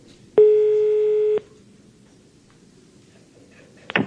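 A telephone call being placed: a single steady electronic tone lasts about a second and is then cut off, followed by near silence and a brief click at the end.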